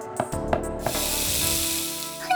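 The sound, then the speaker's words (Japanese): A gas stove flame igniting in a kitchen: a few sharp clicks, then a sudden broad, steady hissing whoosh of fire that holds to the end. “突然火がついたのだ。 ガスまで使ってやがる。”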